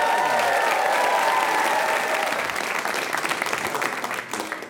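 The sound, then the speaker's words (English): A studio audience bursts into loud applause as a guest enters, dense clapping with some cheering near the start, gradually thinning and tapering off toward the end. “Time now to welcome my guests. John Travolta might call them Slump Panda and Billy Woggle, but I know them as Sue Pollard and Phil Wang. Give it up for Sue.”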